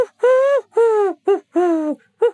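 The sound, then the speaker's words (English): Wood pigeon calling in a garden, five loud hooting coos in a halting rhythm, each a low, steady note a fraction of a second long, with short gaps between them. “P-Flax's garden, the lowly call of a wood pigeon”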